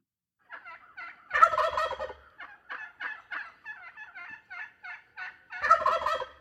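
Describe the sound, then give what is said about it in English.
Wild turkey gobbles and calls from a bird guide app. A loud rattling gobble is followed by a long series of short, evenly spaced yelps, then a second gobble at the end. “The noises you heard on your way into the podcast here definitely was the call of the wild turkey. We can play that again for you.”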